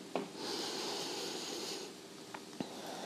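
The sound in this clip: A deep inhalation during a back-stretching exercise routine: a soft, breathy hiss of drawn-in air lasting about a second and a half, faint and steady, with a few small clicks around it and no talking.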